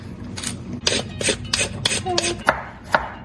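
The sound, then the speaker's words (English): A peeler scrapes along a carrot in a series of quick, rasping strokes. The strokes are evenly spaced and moderately loud against a low background hum. “I'm going to peel the carrot”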